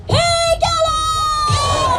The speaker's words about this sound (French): Ce que vous venez d'entendre, c'est le cri de ralliement pour un Tibet libre.